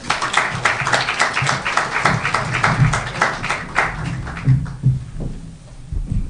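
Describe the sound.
An audience claps to welcome two speakers at a Women's Center event, with dense, even applause for about four seconds before it thins out into low murmuring.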